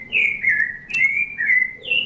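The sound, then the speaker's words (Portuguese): Rufous-bellied thrush singing, clear fluty whistled phrases that run together in a loud, flowing warble, heard alone with no talk. “Aqui o Sabiá Laranjeira está cantando lindamente.”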